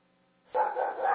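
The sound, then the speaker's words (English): A dog gives one loud, sustained bark or yowl lasting about half a second, following a faint low hum. “And the dog is asking questions.”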